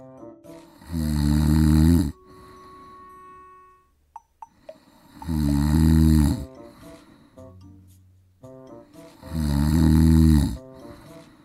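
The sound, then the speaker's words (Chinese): A dragon's loud snoring: three long, deep rumbling snores with quieter gaps between them, where a few faint tones and clicks can be heard. “哇，好大的打呼声啊，一定是恶龙史巴托的打呼声”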